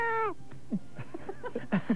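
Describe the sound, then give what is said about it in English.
A cat meows from inside a see-through travel suitcase: a single clear, fairly loud meow at the start that slides slightly downward in pitch, followed by a few faint, short sounds. “It's a see-through suitcase. It's see-through. Oh, yeah. And inside, we have Fluffy. The cat”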